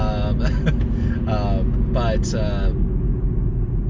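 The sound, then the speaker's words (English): Car tires roll on the road while driving out, giving a steady, loud low rumble that runs the whole time beneath a person talking. “I'm just literally driving out now, as I'm sure you can hear my tires.”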